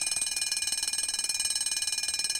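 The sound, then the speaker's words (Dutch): A bedside alarm clock going off after someone has gone back to sleep: rapid, high-pitched electronic beeping in a fast, even pulse that repeats many times without pause, moderately loud and alone. “Ik ga nog een poosje terug in bed, besluit hij. 3 kwartier later loopt de wekker af.”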